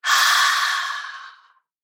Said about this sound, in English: One more inhale, shoulders lift up, sense the muscles working, sense your shoulders lifting, and open your mouth, exhale and release.